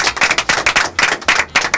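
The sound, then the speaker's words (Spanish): Studio audience applause breaks out in repeated loud bursts of clapping, with a dense, rhythmic patter rising and dipping several times over a couple of seconds and no talk over it. “Acá dentro del estudio. Aplausos.”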